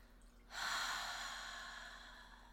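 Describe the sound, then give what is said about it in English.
A person breathing out in one long, soft exhalation. The airy hiss starts abruptly and tapers slowly over about two seconds, faint and alone. “And then when we breathe out,”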